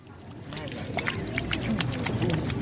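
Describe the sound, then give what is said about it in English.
Water splashing as a little boy washes his hands at the entrance to a health facility, an irregular spatter heard under a voice. “A little boy is just washing his hands at the entrance to a health facility on the outskirts of Goma”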